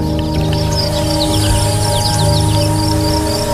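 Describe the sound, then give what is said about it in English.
Birds chirping beside flowing water: many quick high chirps and tweets sound over a steady, full rushing wash of water that continues throughout. “Hear the birds chirping? That's how life is. You hear the water. Isn't it beautiful?”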